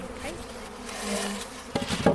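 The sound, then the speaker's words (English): Honeybees buzz around a hive as they fly in near their queen, a dense, steady droning hum with a few sharper, louder buzzes toward the end. “Let the flying bees come in here, and the queen's in there.”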